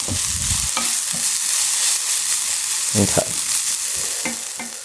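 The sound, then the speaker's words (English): Garlic being stirred into a frying mixture: a continuous bright sizzle of hot oil, broken by several scraping stir strokes that rise briefly above it, with no talking. “Go ahead and mix the garlic into the rest of my mixture and let that have a minute.”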